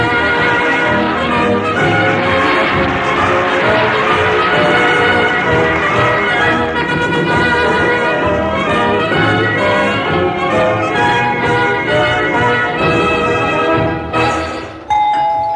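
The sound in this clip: A lively theme tune with bright, bell-like chiming notes plays loudly and continuously, cutting off abruptly near the end.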